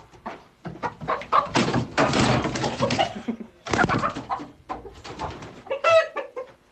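Chickens cluck and squawk in a henhouse in dense, busy bursts over noisy rustling, with a few sharper, higher squawks near the end.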